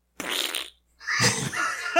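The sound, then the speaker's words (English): A voice imitates farting as a mocking joke, blowing two raspy, sputtering bursts separated by a short silence. The first is brief and the second is longer and louder, with no other talk around them. “just started farting and they're just like going up and down”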